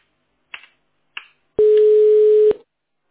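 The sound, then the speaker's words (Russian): A telephone call-back connecting tone: two short clicks are followed by one long, steady mid-pitched beep lasting about a second, alone without speech. “Обратный звонок. Соединяем с клиентом.”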